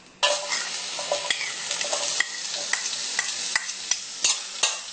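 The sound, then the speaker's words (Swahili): Onions frying in oil and being stirred: a steady, bright sizzle sets in abruptly and runs under many light scraping and clicking strokes from the stirring utensil. “Nikoroga koroga hivyo. Ishikane na mafuta ili isungue. Haya, kitunguu chako”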